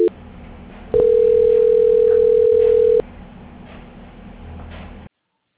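A steady telephone tone plays during a call transfer: one continuous mid-pitched beep of about two seconds, after a brief blip, over faint line hiss.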